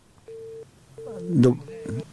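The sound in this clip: A steady, low telephone tone sounds on the line after a caller's call was cut off. It plays briefly, pauses, then returns for longer while a voice speaks over it.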